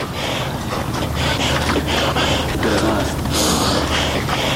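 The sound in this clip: Heavy, labored breathing of a mountaineer climbing Siakoh mountain near Firozkoh: loud, repeated breathy gasps in an uneven rhythm over a constant windy hiss.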